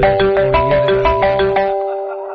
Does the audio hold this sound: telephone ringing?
yes

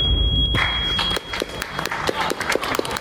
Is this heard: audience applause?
yes

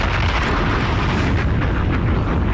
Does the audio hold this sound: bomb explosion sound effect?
yes

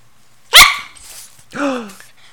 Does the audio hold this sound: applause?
no

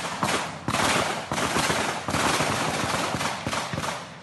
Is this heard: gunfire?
yes

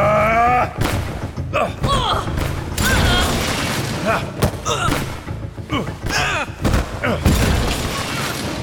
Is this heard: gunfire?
yes

